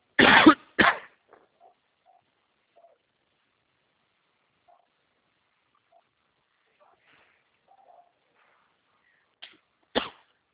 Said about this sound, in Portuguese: Desculpa, engasguei.